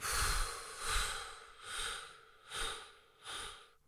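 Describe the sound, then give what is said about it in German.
Slow, deep breathing with inhales and exhales: five soft, airy, rushing swells that rise and fade at an unhurried, even pace, with no voices. “4 einatmen. Halten. Und ausatmen.”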